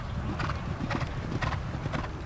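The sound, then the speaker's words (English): Horses' hooves clip-clop at a racetrack during early-morning workouts at Arlington. The hoof strikes keep a steady, regular rhythm over a constant low rumble. “The horses and the jockeys at Arlington work out early in the morning.”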